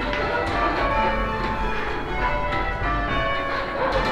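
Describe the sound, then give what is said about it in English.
Church tower bells rung in change ringing: many overlapping bell strikes form a dense, loud, continuous peal of rich ringing tones with fresh strikes cutting through the sustained hum. No voices are heard. “That's the meaning of change bell ringing. And to round out the conversation, that sounds something like this.”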